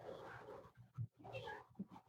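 A puppy pants and whimpers in a studio: rapid, breathy panting comes in short bursts, broken by a couple of brief, higher-pitched whines. The sounds are fairly faint and no voices are heard.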